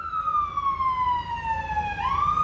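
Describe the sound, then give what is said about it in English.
A loud emergency siren wails through rush hour traffic in Kilmainham, its pitch sliding steadily downward before jumping back up near the end, over a low rumble of vehicles. “So it's rush hour traffic here in Kilmainham. Traffic is normally busy here, but since the cycle lanes came in over a week ago, you can certainly see that the traffic is a lot busier than usual.”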